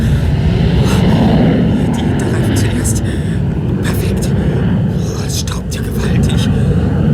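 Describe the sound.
A small aircraft's engine drones as it comes in to land, a loud, steady low rumble with a brief dip in level near the end.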